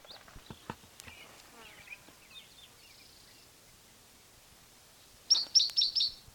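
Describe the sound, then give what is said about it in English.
Birdsong with faint scattered chirps and twitters early on, then a loud quick run of repeated high, sharp notes near the end. “same bird, different song”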